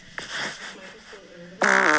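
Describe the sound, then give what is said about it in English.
A fart with a brassy, trumpet-like quality: a sharp onset and a noisy rasp, then a loud, buzzing, harmonic blast at the end that sounds like two horns playing together. “Whose fart was that? That's going to be my text tone.”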